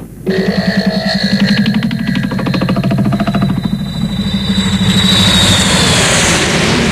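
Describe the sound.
Engine noise inside an airplane cabin: a loud, steady drone with a deep hum and a rapid pulsing flutter, plus a faint high whine, swelling slightly toward the end.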